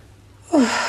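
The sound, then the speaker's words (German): A deep inhale through the nose during a guided relaxation exercise: one soft, breathy draw of air that begins halfway through and then holds steady to the end. “Dann kannst du nochmal tief einatmen über die Nase”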